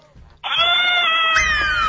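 A cat meows in one long, loud, drawn-out call whose pitch slides downward near the end, over a low background rumble.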